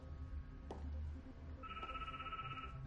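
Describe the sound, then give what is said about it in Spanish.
A ringing tone from a mobile phone call placed from a caravan inside a workshop. A steady electronic ring starts about halfway through and holds over a low background rumble. “llama con su móvil a su antigua novia.”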